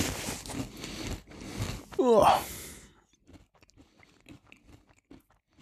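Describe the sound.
Someone bites and chews a Mallorcan specialty food. Talk comes first, then a loud crunching bite with a crackly rustle, followed by faint, irregular chewing clicks.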